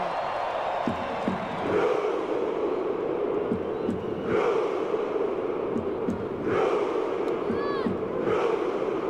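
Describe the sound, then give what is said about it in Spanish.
A football crowd roars in celebration of Norway's World Cup win, a dense, sustained wall of cheering and shouting that swells in waves throughout. “Extraordinario el festejo de Noruega, que está en los octavos de final y enfrentará a Brasil en la Copa del Mundo.”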